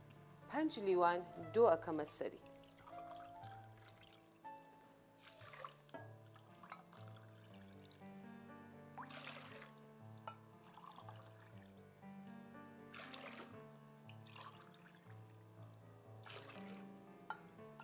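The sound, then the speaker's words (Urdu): Doogh, a yogurt drink, pours and splashes from a glass into a pot of porridge in a brief liquid burst at the start, followed by a person talking over faint dribbling. “ایک glass دلیا کو پتیلی میں ڈالتے ہیں, پھر جی ہاں, ایک glass آپ نے اس کو ڈالا, پھر 5 گلاس دوغ اس میں اب شامل کریں گے.”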